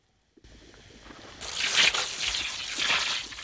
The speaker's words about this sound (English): He sprays the face with a water jet hanging nearby.